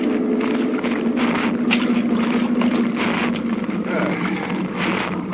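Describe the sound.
A boat engine idles as the craft coasts in toward an island, giving off a steady low droning hum that holds evenly throughout.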